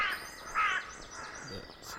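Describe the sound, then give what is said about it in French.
Rook calling with a few harsh, rasping caws separated by short pauses, fairly faint over a steady background hiss. “C'est le corbeau freux, du coup. Corbeau freux.”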